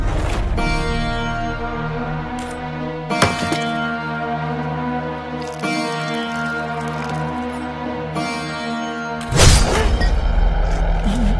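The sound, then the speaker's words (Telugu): A coconut is broken to begin a puja: a few sharp, loud cracking whacks cut through a sustained, steady musical drone, with the heaviest strike near the end. “ఈ కొబ్బరికాయ కొట్టి మీ బంగారులన్నీ చేతులతో ఈ భూకబ్జ పూజని ప్రారంభించండి.”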